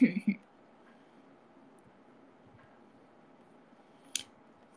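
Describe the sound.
Scissors cutting paper: a few quick, crisp snips at the start, a long quiet stretch of low hiss, then one more brief snip near the end.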